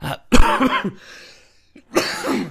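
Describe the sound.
A person coughs hard in two harsh, loud bursts separated by a short pause, with no talking.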